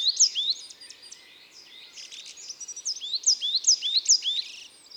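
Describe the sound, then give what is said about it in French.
A small forest tit that favours conifers sings in a lively run of many high, thin chirps and quick whistled notes. They come in clustered bursts at a steady pace, with no other sound around them. “C'est une petite mésange des forêts qui aime les conifères. Elle est très vive, toujours à voltiger dans les arbres, et très bavarde aussi.”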